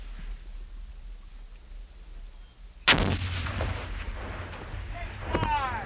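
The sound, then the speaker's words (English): A hand grenade explosion during military grenade-throwing training: one sudden, loud blast about halfway through, then a sustained rumbling wash of noise that lingers to the end, with faint voices mixed in. “When you throw this grenade, I want it thrown hard and far, just like you would a baseball. Yes, sir. Once you have thrown this grenade, I want you to get down immediately. Yes, sir. On the way!”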